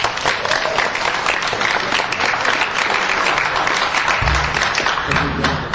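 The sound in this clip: Loud, continuous applause from an audience welcoming back a guest. The clapping is dense and holds an even level for the whole stretch.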